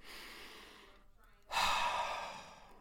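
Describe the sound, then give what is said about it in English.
A deep, slow ASMR-style breath, soft and airy: a quiet breathy stretch, a brief near-silent pause, then a louder, longer exhale that gradually fades. “Apologies if ASMR isn't your thing, it's certainly not mine, but I couldn't think of a better time to pause and take a deep breath.”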